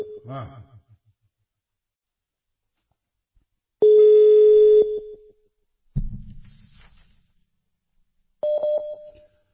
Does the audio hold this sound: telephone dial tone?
yes